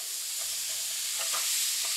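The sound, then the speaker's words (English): Tomatoes fry in a hot pan with a loud, steady sizzling hiss that does not let up, along with faint scraping as they are stirred. “I'm throwing in the tomatoes.”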